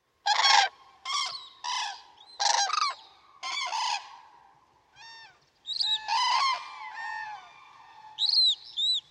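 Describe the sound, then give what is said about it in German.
Adult and young bird calls, a long series of short, harsh honking bursts separated by brief gaps, with thinner, higher calls mixed in toward the end. The calls are loud and clear, and no one talks. “Und ich habe mal eine Aufnahme mitgebracht, wo man beides hört. Achtet mal drauf, ob ihr den Jungvogel da rauskriegt.”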